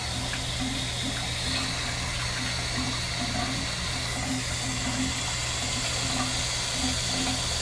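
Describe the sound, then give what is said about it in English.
Water draining from a bathtub, a constant rushing, gurgling flow over a low steady hum, even in level from start to finish. “let me just drain the tub a little bit for you.”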